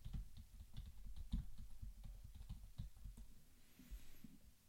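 Typing on a computer keyboard: many quick, irregular keystrokes clatter in a continuous, soft, low patter, with a few heavier taps standing out.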